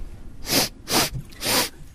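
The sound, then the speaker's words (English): A person takes three short, sharp sniffs, evenly spaced, to smell coffee aroma during a quality-check tasting. The sniffs are quiet and stand alone, with no talk. “Okay, so have a little sniff there. I'll follow you and see what you're sniffing.”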